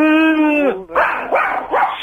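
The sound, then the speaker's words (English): A dog yelps and barks: a long, high, whining cry that falls in pitch, then a few sharp, rough barks in quick succession. “You're not bringing that bloody dog with you. Oh, she's gorgeous.”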